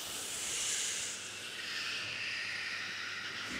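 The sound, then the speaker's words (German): A choir breathing in together during a vocal exercise: a soft, steady, breathy hiss that lasts more than three seconds, slightly fuller at the start, with no singing or talk. “Und das Kinn rollt über den Brustkorb. Und einatmen.”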